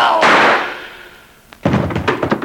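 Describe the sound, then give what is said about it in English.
A gunshot fired at a police officer rings out as a sharp, loud blast whose echo fades over about a second, after which someone speaks. “You shot him. You shot a cop.”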